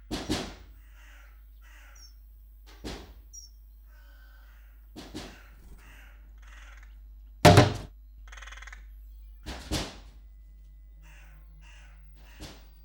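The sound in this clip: Harsh, caw-like squawks from a small pet bird, given as a few short isolated calls separated by long silences, with one noticeably louder call near the middle.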